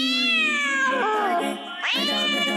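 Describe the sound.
A furry pet cat meows twice: first a long, drawn-out harmonic call that slides downward in pitch, then a brief dip before a second meow that sweeps sharply upward, fairly loud and with no voices.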